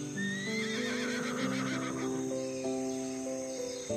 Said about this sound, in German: Das Fohlen hat gerade eine Gruppe anderer Einhornkinder entdeckt und läuft fröhlich wiehernd auf sie zu.